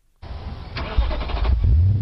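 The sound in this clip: A car engine fitted with a breathalyzer ignition interlock starts up. The starter cranks in a quick stutter of bursts, then the engine catches and swells into a louder, steady low running rumble.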